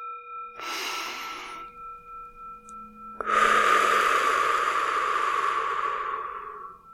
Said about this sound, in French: Fermez les yeux, prenez quelques grandes respirations profondes.